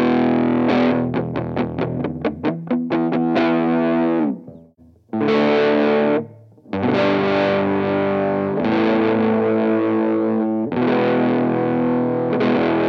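A 1975 Ibanez 2469 Futura electric guitar with a brass nut, played through its neck pickup with distortion. A burst of rapid strummed chords is followed by a short pause, then loud, ringing sustained chords, with no talk.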